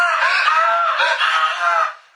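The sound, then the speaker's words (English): A high, piercing scream, voiced as a woman shrieking over a single broken fingernail during a tabletop role-playing game session, holds strong and steady for about two seconds before cutting off abruptly. “She screams. worse than anything you've heard her scream from being mauled by monsters.”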